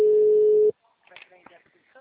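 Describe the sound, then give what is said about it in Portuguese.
Telephone ringback heard while calling someone: a single steady mid-pitched tone lasting under a second, then a sudden cutoff into near quiet with faint, indistinct sounds. “Tô ligando pra ela.”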